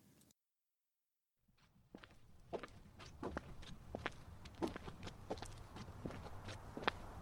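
Footsteps of someone out on a walk tap in a steady, even rhythm, quiet but distinct over a low background rumble, after a brief silence at the start.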